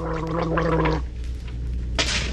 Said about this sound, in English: But now there's Wham Wash, minty and antiseptic gargle that alleviates sock mouth first thing in the morning and all day.